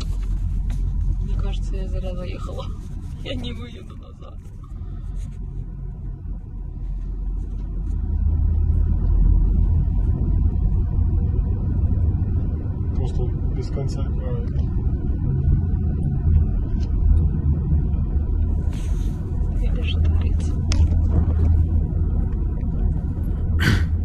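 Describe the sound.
Columns of cars driving in from Ukraine make a continuous low rumble that grows heavier partway through and carries on steadily beneath people talking.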